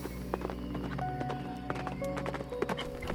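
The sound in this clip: Horse hooves clip-clop in many quick, irregular beats at a fairly even level, with no voices.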